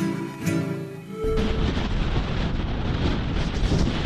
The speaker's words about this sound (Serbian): u laguni Inka Koja u pustinji Atakama zaduvao još jači vetar, takozvani twister. Sada ćete čuti kako to zvuči.